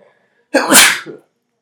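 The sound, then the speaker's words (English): One loud human sneeze bursts out of silence, with a sharp, breathy blast and a short trailing exhale. “That was a solid sneeze.”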